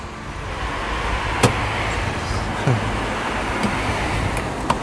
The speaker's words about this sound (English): My boot's rattling. Okay. I don't think I've closed it.